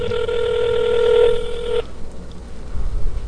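Ringback tone of an outgoing telephone call: a steady, bright electronic tone holds for nearly two seconds, then cuts off abruptly, leaving faint background noise.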